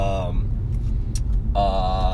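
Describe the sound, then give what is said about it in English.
Low, continuous rumble inside a car stuck in traffic, sitting steadily beneath a man's voice, which is heard at the start and again at the end. “I'm usually driving when I do these. Right now I'm stuck in traffic”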